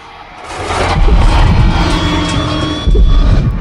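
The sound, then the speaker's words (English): A car engine accelerates under a flyover, rising from quiet into a loud, steady roar that holds and then swells again near the end. “Chev accelerates under a flyover.”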